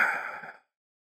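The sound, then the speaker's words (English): A deep breath during a lying-down yoga relaxation with the palms over the eyes, heard as one soft, airy sigh that fades out after about half a second, followed by silence. “And take one more deep breath in and out.”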